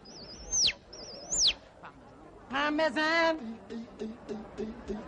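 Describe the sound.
A human voice imitates a bulbul songbird with two high, warbling whistles that swoop up and then drop sharply, followed by a stretch of buzzy, nasal, voiced calls and a few short chirps.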